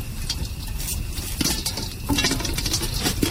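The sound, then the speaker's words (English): Popcorn pops in a lidded pot over an open fire, many quick faint pops forming a steady patter with occasional light metallic clinks and no talk. “Popcorn on a real fire.”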